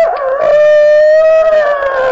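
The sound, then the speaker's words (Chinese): A human voice imitating a rooster crowing: one long, loud, sustained tonal cry held at a fairly steady pitch from start to finish. “哎，偷鸡的装起来了公鸡啼。”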